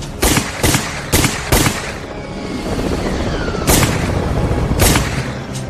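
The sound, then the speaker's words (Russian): Gunfire in a film battle scene with bullets flying past: several sharp, loud shots in quick succession, a pause carrying a faint descending whizz, then a few more isolated shots, with no voices. “мимо летят пули.”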